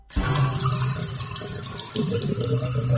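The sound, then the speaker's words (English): Water running down a household drain that may point to a sewer problem, a steady, loud rushing and gurgling flow that continues unbroken from start to end with no other sounds. “Is that what you hear from your drains?”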